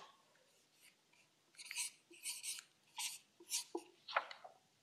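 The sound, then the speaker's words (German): Writing in bold letters: several faint, scratchy strokes on a surface, each a short hissing scrape, in an irregular rhythm over near silence. “Da muss ich fett schreiben.”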